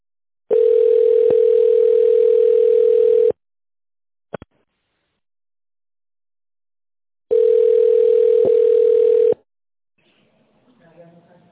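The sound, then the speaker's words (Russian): Telephone ringback tone while waiting for a call to be answered: two long, steady, loud buzzing tones separated by a silent gap with a brief click, followed by faint rustling noise. “вы позвонили в Копитехсервис. Пожалуйста, дождитесь ответа.”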